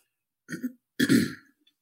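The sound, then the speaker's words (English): Throat clearing: a person gives two short, rasping bursts. The second is louder and longer, and the clearing is heard alone against silence. “again, pardon for this, the clearing, throat clearing.”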